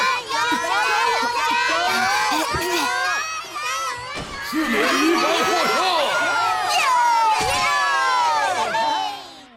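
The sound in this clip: Classmates cheer and shout from the sidelines of a school pole-climbing relay, a loud, excited jumble of overlapping children's voices with rising and falling yells that stays busy from start to finish.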